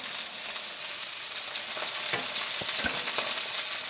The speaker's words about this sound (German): Oder der Zwiebel ist mit Weißwein nicht gelöscht, dann kommt Sahne dazu.